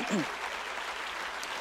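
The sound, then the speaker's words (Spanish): Church audience applauding in praise during a Spanish-language sermon: a short, steady, fairly faint patter of many hands, with a brief voice at the very start. “si usted quiere darle ese aplauso al Señor, hágalo mejor.”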